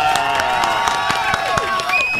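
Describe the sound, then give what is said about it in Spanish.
Studio applause with clapping and cheering voices welcomes a female guest on a Spanish-language football talk show. Dense, steady clapping with a few pitched whoops runs throughout. “Un aplauso para Andrea, por favor.”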